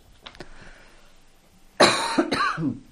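Coughing from a person: two loud, harsh coughs close together, preceded by a few faint throat sounds.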